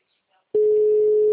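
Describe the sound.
A telephone line tone while a call is being placed: after a brief quiet moment, a loud, steady single-pitched tone switches on and holds without a break.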